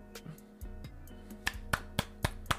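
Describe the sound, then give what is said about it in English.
One person claps alone. A few soft taps come first, then five sharp, evenly spaced claps in quick succession, all fairly quiet. “I applaud myself.”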